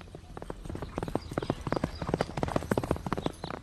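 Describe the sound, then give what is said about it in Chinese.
Horse hooves clip-clop as the general Cao Hong rides his horse forward out of the ranks: many rapid, crisp hoofbeats in a brisk rhythm, heard alone. “可不等他话音落下，大将曹洪便纵马出列，大声叫道：”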